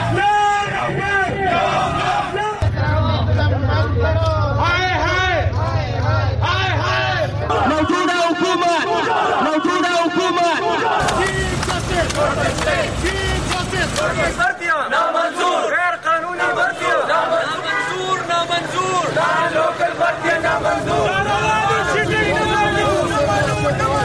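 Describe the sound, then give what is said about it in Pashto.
Protest crowds in Pakistan chant demands for their rights, loud rhythmic shouted chanting from many voices that shifts between several different chants and crowd sections throughout. “دا په پاکستان کې د مختلفو هغو مظاهرو غږ دی چې خلکو د خپل حقونو د غوښتنو لپاره کړی دي.”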